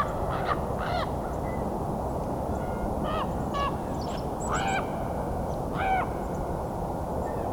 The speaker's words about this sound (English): Raven again. Well, it's coming this way.